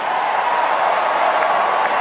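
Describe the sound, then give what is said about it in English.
Cheers and applause from a crowd as President Trump signs the withdrawal from the Paris Climate Treaty form a continuous, dense wash of clapping and cheering at a steady, fairly loud level throughout. “Cheers as President Trump signed a withdrawal for the second time from the Paris Climate Treaty there.”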